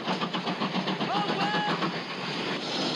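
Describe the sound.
A steam train arrives at a station with a continuous loud rumble and rattling, clattering wheel noise that stays even throughout.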